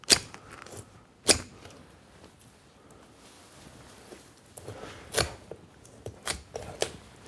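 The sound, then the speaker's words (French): Rib shears cut through ribs. A few sharp, crunching snaps arrive at irregular intervals, with quieter scraping between them. “pour pouvoir, avec le costotome, eh bien, couper les côtes.”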